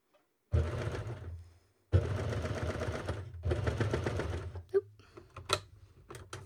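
Overlocker sewing a two-thread flatlock stitch on very stretchy fabric for underwear, with the stitch length set to its longest. Three bursts of fast, buzzing mechanical whirring, separated by short pauses, are followed by a few light clicks.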